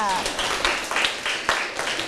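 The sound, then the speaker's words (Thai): Students in a classroom applaud a classmate after a good answer. Scattered, rhythmic hand claps of moderate loudness follow a brief voice at the start. “โอ้โหเยี่ยมเลยค่ะปรบมือให้เพื่อนค่ะ”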